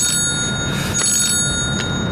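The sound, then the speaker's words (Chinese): A telephone ringing, short bright trilling bursts recurring over a steady background hum, with no voices. “稍等啊。 好嘞。 我接个电话。”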